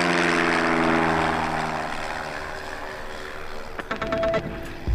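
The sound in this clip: A propeller aircraft starts up and takes off, its broad engine roar loud at first and then steadily fading, with a few rattling tonal bursts near the end.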